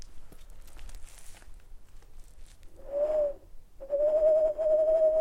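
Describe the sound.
A human voice imitates a male tawny owl's hoot: a short tonal hoot, a brief pause, then a longer wavering hoot, fairly loud over a faint rustling background.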